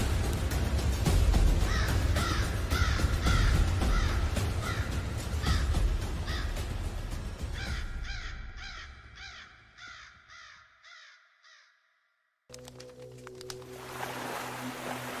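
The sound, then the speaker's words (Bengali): A raven caws over and over while circling above a cremation pyre, giving a steady, rhythmic series of many harsh calls over a rough background noise. The calls fade toward the end before a brief silence. “চুল্লির ঠিক অনেকটা ওপরে একটা দাঁড় কাক ঘুরপাক খেতে খেতে সমানে ডেকে যাচ্ছে”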